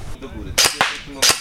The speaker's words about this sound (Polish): Do atakującej piechoty granatem ognia. Chowamy się. Czekamy 4 sekundy. Bum.